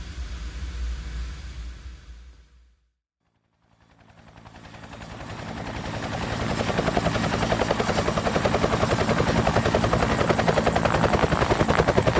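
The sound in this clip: Rapid, steady rotor chop of an IDF aircraft coming in to land on the edge of town. A low rumble drops out to a brief silence, then the engine noise swells and holds loud to the end.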